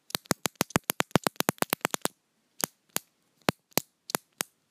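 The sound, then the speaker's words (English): Pen clicking, first as a rapid run of many sharp, crisp clicks, then slowing to a handful of isolated clicks separated by short pauses. “Oh, you like that? Like that click, the click of the pen?”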